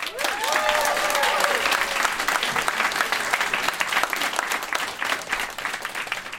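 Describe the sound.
Audience applause welcomes a reader to the stage at a live event where adults read aloud things they wrote as children. The clapping is thick and continuous throughout, loudest early on and easing slightly toward the end.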